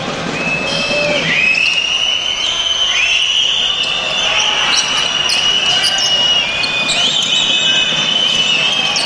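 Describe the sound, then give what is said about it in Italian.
A basketball is dribbled side to side by a player during a game. The bounces come amid sharp, high sneaker squeaks on the court over a steady low murmur. “Qui buono il palleggio laterale al ressettore di Herbie.”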